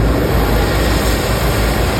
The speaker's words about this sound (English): Engines starting up this morning as crews headed into the third day of aerial operations at Slieve na Mann.